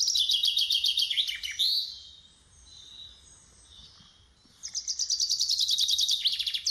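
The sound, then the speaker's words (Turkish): Bird song from a small, plain bird without showy plumage: two bursts of rapid, high, bright chirping and trilling, separated by a quieter stretch of faint twittering, with no voices. “Şu an duyduğunuz kuş dünyanın en meşhur kuşlarından biri gibi gelmeyebilir.”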